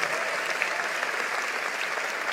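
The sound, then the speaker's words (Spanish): Dense, steady applause from an audience during a church sermon, with continuous clapping at an even loudness for about two seconds and no talking over it. “Vamos, si lo crees, dale un aplauso al Señor.”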